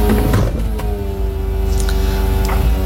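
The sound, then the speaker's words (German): The soft top of an old, very small convertible car opening: a steady mechanical whirring hum from the motor runs throughout at an even level, with a few faint clicks and knocks toward the end. “Und das war das Öffnen des Verdecks meines Cabrios.”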